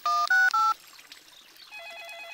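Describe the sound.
A telephone is dialed with three loud touch-tone beeps at different pitches. After a short pause a fainter warbling ring tone follows.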